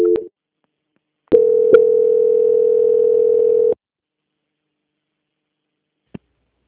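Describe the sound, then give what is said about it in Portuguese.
Telephone line tone during a call transfer: a brief tone and click, then one steady, level, mid-pitched tone lasting a couple of seconds, silence, and a single short click near the end. “peço que aguarde em linha que eu vou transferir o seu contato para o controle de qualidade. Só um minuto.”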